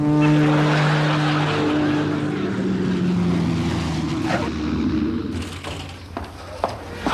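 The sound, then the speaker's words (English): Steady, droning hum of an aircraft in flight with a throbbing engine note. Near the end the drone thins out and a few sharp knocks and clicks cut through. “Look, I'm the pilot, and I'll decide when to land this aircraft.”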